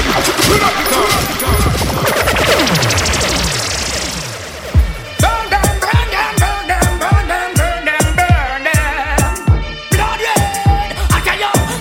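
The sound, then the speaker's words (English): Gunshot sound effects fired into a dancehall mix, arriving as a rapid run of sharp, loud bangs after a sweeping whoosh, set against the pounding rhythm of the music. “Right, so anywhere they say the back, just give them gunshot.”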